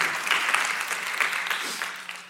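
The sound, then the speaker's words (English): A church audience claps: a steady, dense patter of many hands with no pause, gradually tapering slightly in loudness toward the end. “somebody wants to clap and you can if you need to.”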